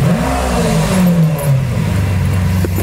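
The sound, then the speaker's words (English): A car engine revs as the car drives off, a loud, throaty roar whose pitch sways while it pulls away, with no voices. “Give me gas. No problem, buddy. Okay. All right. Off we go. I haven't driven this in a second.”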